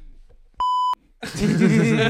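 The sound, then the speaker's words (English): A single censor bleep cuts in as a loud, steady pure tone lasting about a third of a second, followed by people talking and laughing loudly. “That's such a good beep.”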